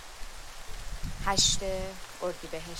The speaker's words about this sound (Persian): این صدایی که میشنوین صدای بارون.